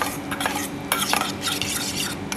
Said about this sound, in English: pepper, quite a bit of pepper, a little bit of salt in there, and then that becomes the dressing. Emulsify it a little bit.